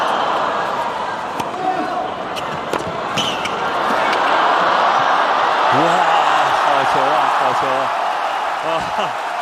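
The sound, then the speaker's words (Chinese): Applause from a tennis crowd after a long, hard-fought rally, a steady dense roar of clapping that holds for several seconds while a male commentator talks over it. “全场观众掌声雷动啊！”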